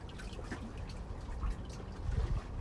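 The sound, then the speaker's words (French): Water of Lake Annecy lapping under a pontoon: a steady, soft wash of splashes and gurgles, with deeper sloshing surges growing louder near the end. No voices. “Sous le ponton, nous avons l'eau du lac d'Annecy, son clapotis,”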